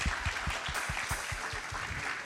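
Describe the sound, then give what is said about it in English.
Applause from a gathered crowd at an evening church event collecting gifts for a holiday giving ministry, a brief, fairly faint patter of rapid, even hand claps with no voices. “Can we give everybody a round of applause for bringing in their gifts?”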